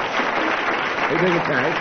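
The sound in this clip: Quiz audience applause confirming a contestant's answer: steady, dense clapping that holds for under two seconds, with a voice talking over it in the second half.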